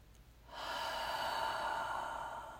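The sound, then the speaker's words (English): One slow, deep breath, a soft airy rush that swells in quickly and holds steady for about two seconds before easing slightly, heard alone without any voice. “we will take a few slow, deep breaths together. In through the nose and out through the mouth.”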